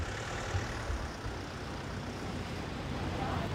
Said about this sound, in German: Der Fahrer vom Lieferwagen fährt noch rechtzeitig weg.